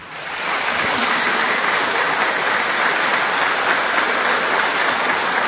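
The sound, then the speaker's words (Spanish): An audience at a public session applauds with a dense, continuous wash of clapping. The applause builds quickly and then holds steady and loud, with no talking. “Y sí, pediría a todos ustedes un aplauso para él también.”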